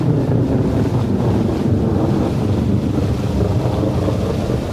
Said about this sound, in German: Und während die kleine Ameise so sang, begann es fürchterlich zu regnen.